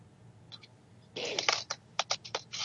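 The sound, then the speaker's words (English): Clicking on a computer: two faint clicks, then a denser burst of clatter, followed by several distinct, sharp clicks at a fairly steady pace. “Whoever is clicking around, please stop.”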